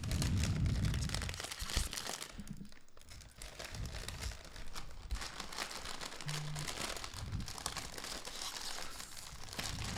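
Crinkling plastic of a bag of chips being opened and handled, a continuous dense rustle that runs for the full ten seconds at a fairly faint level.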